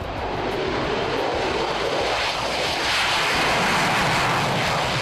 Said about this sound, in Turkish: İşte dünyanın en yüksek bütçesiyle geliştirilen savaş uçakları.